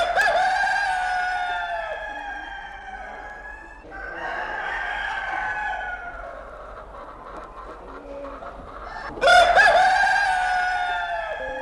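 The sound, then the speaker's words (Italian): A rooster-crowing sound effect. It gives a few long, bright, harmonic crows in succession, the last one entering loudly and sharply before trailing off, with no talk over them. “Se non usiamo il gallo oggi, non lo usiamo più, un gallo ibernato da settimane e mesi che scongeliamo volentieri.”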